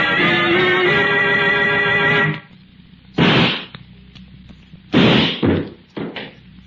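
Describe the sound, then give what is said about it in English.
A gunshot goes off during a struggle in a radio drama, one of a few sharp, loud bangs that follow the end of a sustained musical tone. “You fool, Ripley. You shot him. No, Corbin. It was an accident. Armstrong tried to take my gun. In the struggle, it went off.”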